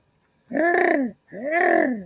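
A person imitates a turtle dove's cooing call to draw doves closer: two drawn-out, hollow hoots, each arching up then down in pitch, separated by a short pause, with no other sound around them.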